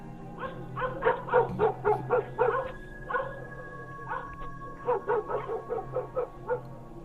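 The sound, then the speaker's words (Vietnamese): Two black dogs in a yard bark wildly: a long run of many sharp, rapid, loud barks and yelps, broken by a brief pause before another frantic burst. “hai con chó mực ở ngoài sân chả biết là bị làm sao, cứ thế mà quay đầu vào trong nhà, sủa như điên như dại”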